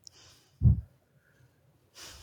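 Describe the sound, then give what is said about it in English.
A slow breath taken in through the nose and let out during a calming breathing exercise. A faint airy inhale leads into a short, soft puff, and another quiet breath follows near the end. “So the three of us just take a nice and slow breath into our nose. We count to two and we let it out.”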